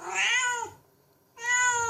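A cat meows twice, two clear, bright, drawn-out calls separated by a short silent pause, with no voices alongside.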